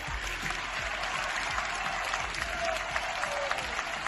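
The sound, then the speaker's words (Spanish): Young fans clap and cheer as they watch Málaga's squad train at La Rosaleda stadium during an open session, a steady, fairly quiet wash of applause and crowd noise with no break. “Este es el sonido de los aficionados, de los chavales, de los más pequeños viendo a sus jugadores preferidos”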